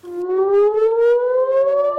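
Air raid siren wailing in northern Israel, its loud, harmonically rich tone rising steadily in pitch throughout the two seconds, with no talk.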